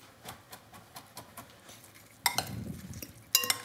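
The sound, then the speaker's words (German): Utensils clink and scrape as chili peppers are added to a filling. Light taps come first, followed by two louder bursts of clattering and stirring near the end. “Ich gebe jetzt hier noch in die Füllung so Chilis rein.”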